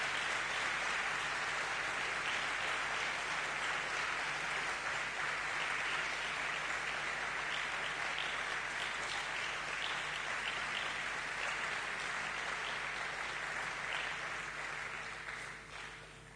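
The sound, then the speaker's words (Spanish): A church audience applauds during a service, a sustained, even wash of clapping that stays constant for many seconds before easing off at the end. “A ver, fuerte, fuerte aplauso al Señor allá atrás, con fe.”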